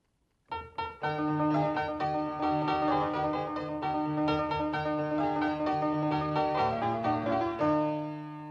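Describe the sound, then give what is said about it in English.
A mid-19th-century Broadwood piano plays alone, entering after a moment of silence with rich sustained chords and a moving melody, loud and resonant throughout. “What you just heard now was a Broadwood piano from the middle of the 19th century, and I think it was the very best time of the Broadwood pianos.”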